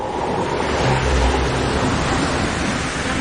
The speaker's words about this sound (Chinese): 浪来浪来，小心站轮了。